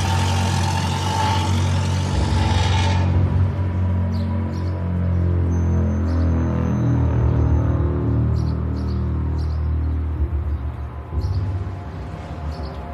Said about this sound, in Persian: فرهاد سوار ماشین میشه، میره.